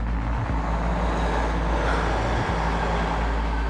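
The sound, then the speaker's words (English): Car pulling away as its driver lets off the brake on leaving Charlottetown: a continuous low engine rumble blends with broad road noise, holding at a steady level throughout. “I'm letting my foot off the brake. I'm leaving Charlottetown.”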